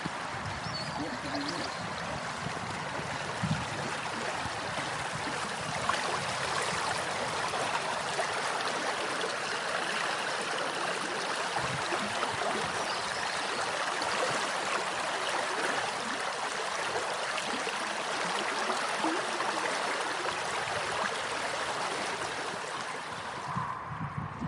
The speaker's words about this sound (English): this is a lovely little river, the Yarty. There's a lot going for it. So I'm going to record a bit of the sound of the Yarty.